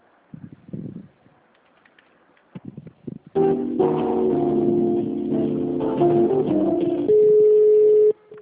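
Telephone tones while a call is transferred to another extension: after a few faint sounds, a loud, steady electronic tone sequence plays for about five seconds, stepping between pitches and ending on a long held note.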